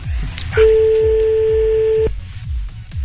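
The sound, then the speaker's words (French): Telephone ringing as a single sustained, steady electronic tone lasting about a second and a half, sounding over a rhythmic, low thumping beat that continues before and after it. “Ça sonne. Oui, allô?”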